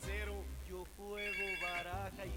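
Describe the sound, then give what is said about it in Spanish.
A telephone rings on an incoming call-in line with a melodic electronic ringtone: bright tones shift up and down in pitch and play loudly and continuously for about two and a half seconds. “Ahí tengo un llamadito.”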